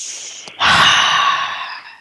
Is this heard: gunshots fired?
no